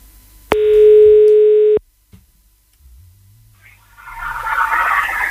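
A steady telephone dial tone sounds alone for just over a second while a radio listener is called, then cuts off into near silence before a low, rising line noise.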